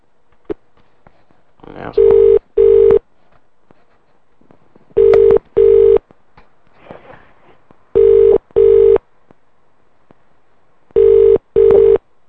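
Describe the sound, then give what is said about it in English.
Ringing tone on a telephone line to a hotel restaurant: four double rings, eight steady tonal bursts in evenly spaced pairs, with faint murmuring and noise in the gaps between them. “Please answer the phone”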